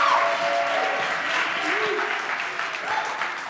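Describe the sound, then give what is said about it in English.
A church audience applauds its youth pastor at a Sunday service, a steady wash of clapping that holds for the whole stretch with some voices mixed in. “Can you give it up for our youth pastor, Pastor Hunter Costello? Come on.”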